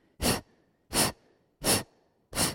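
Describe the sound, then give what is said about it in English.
Deep, forceful exhales during a breathing exercise, four loud breathy bursts at a steady, even rhythm with quiet gaps between them. “Let's exhale together. The only effort happens on the exhale.”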